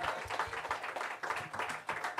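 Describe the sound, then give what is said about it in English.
Audience applause at a live show: dense, continuous clapping from many hands, holding a fairly steady loudness throughout. “All right, you guys. Give him a round of applause.”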